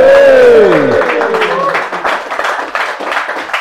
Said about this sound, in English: We're in before a live audience, so let's hear the live audience who are here.